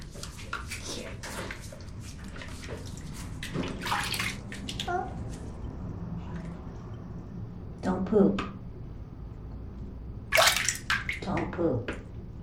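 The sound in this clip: Water splashing and sloshing as a baby is washed with soap in a bath, soft intermittent splashes with louder bursts near the end.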